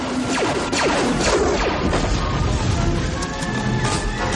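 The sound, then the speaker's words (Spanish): A soldier's speeder bike crashes into another bike in a 1983 science-fiction film. The loud, dense mix of whining engine sweeps and crashing impacts runs continuously, with no clearly separate events. “El soldado se estrella contra otra moto.”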